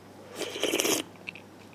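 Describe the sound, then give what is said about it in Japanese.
A bite of sea bream over rice in a bonito-based broth gives a short, soft crunching burst, followed by a couple of faint chewing clicks. “一口いただいてよろしいでしょうか。 はい、どうぞ。”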